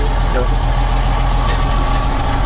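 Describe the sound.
Engine of the vehicle Henk is driving while shifting gears and steering, a steady low mechanical drone with a constant hum running under people talking.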